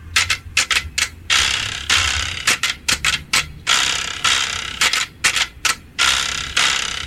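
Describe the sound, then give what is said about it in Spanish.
A carraca, a ratchet rattle percussion instrument, cranks out loud bursts of rapid clicking, with short flurries alternating with longer sustained rattles and no other sound. “Así suena la carraca.”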